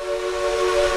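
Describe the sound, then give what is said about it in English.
A steam whistle blows from a 1920s Heisler No. 6 locomotive called the Durbin Rocket, one steady, held, hissing tone that swells slightly louder toward its end. “This is the sound of a 1920s Heisler No. 6 locomotive known here as the Durbin Rocket.”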